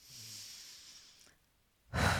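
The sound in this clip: A single breath, heard as a soft, airy hiss that thins out and falls silent, then a short, louder, rushing burst of breath at the very end.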